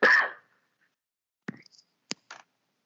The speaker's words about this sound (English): You cough. Yeah, I'm done coughing.